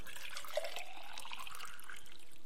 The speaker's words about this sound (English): But if you fill it with water,